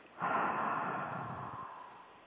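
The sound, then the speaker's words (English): A single deep breath during a guided relaxation exercise: a long, breathy hiss that swells quickly, then slowly fades away, alone, with no talking. “Let's all take a deep breath and close our eyes unless we're driving, okay? Another deep breath.”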